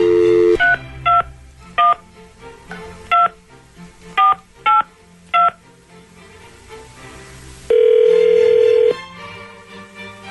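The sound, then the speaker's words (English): A telephone number is dialed on a touch-tone phone: a brief tone, then seven short, clear keypad beeps in an uneven rhythm, followed by a longer steady tone. “All right, so here we go. Dialing at random.”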